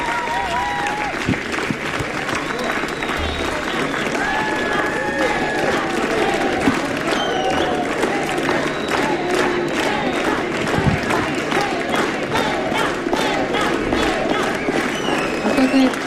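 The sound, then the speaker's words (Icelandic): Audience applause after a stage performance: dense, steady clapping that runs through the whole stretch, with crowd voices and shouts mixed into the roar. “Gefið þið Agnari Birgisteini og Jóa Hjöl gott klapp.”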